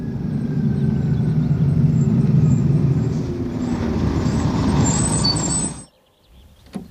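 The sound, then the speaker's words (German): A bus pulls in at a terminal stop with a steady low engine rumble, then a brief high squeal of air brakes near the end before the sound drops away. “als ich zur Endhaltestelle ging, um den Bus aus Amiens zu erwarten.”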